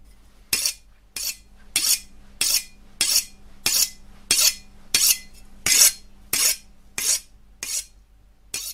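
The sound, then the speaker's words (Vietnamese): An elderly woman sharpens a knife on a red stone in a gloomy room, making about fourteen grating, hissing strokes in a steady, even rhythm. “ngoại mài dao lên một tấm đá đỏ nhìn trông kỳ lạ lắm. Trong căn phòng u ám ấy, trong cái không gian đáng sợ ấy, tiếng bà ngoại mài dao và lầm bầm những cái âm thanh gì đó ghê sợ vang lên.”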